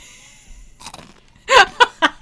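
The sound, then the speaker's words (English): Crunching and chewing of Pocky snack sticks: faint rustling first, then a few loud, crisp crunches with short gaps as the sticks are bitten and chewed. No talking. “We did talk about the ASMR off camera. The man brought Pockies. and now we're doing ASMR on the podcast.”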